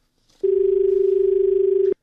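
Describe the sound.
A phone call connecting, heard as one steady mid-pitched electronic tone. It starts and stops abruptly, lasts about a second and a half, and has no voices over it.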